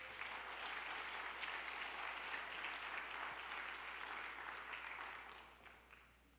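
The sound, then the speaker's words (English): Applause from an audience welcoming the elders forward. The clapping is dense and sustained at an even level, then tapers off over the final second or so. “The elders want to also make a presentation, and so we want to welcome them forward. Or Julie, I suppose, is coming up. And let's give them a hand as they come.”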